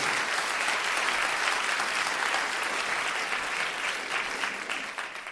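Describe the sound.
Steady applause from a wedding crowd welcoming the couple's parents, a dense, even clapping that carries on without a break and eases slightly at the end.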